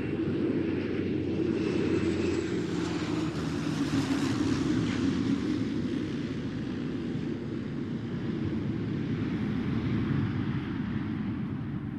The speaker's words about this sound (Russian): Надо мной взлетел серый Боинг-невидимка и взял курс на юг. Четко было слышно, как пилот добавил газу, и движок со звонким именем Pratt & Whitney взял новую красивую ноту.